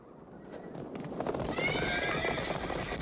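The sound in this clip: Galloping hooves of more than twenty racehorses ridden by soldiers set off on a riverbank meadow after a shouted signal. A dense, rising clatter of hoofbeats builds, with high whinnying tones joining midway, while a voice talks over it.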